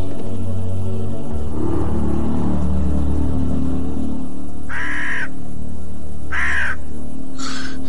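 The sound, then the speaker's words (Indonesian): Crows caw over a village, thought to be carrion birds: three harsh, raspy calls spaced a second or so apart, rising above a steady low rumble that runs through the whole clip. “Sebuah desa yang kelihatan dipenuhi oleh burung-burung pemakan bangkai.”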